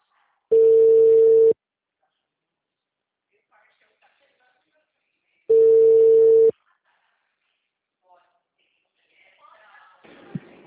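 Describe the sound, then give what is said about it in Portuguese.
A telephone line sounds its tone after a dropped call: two loud, steady mid-pitched beeps, each about one second long, separated by several seconds of near silence. Faint rustling follows at the end. “A ligação caiu, desculpa, a ligação caiu.”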